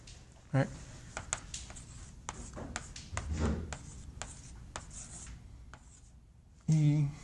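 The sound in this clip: Writing strokes on a board during a lecture on impulse sequences and superposition: many short, scratchy marks in uneven bursts, with brief voice sounds at the start and near the end.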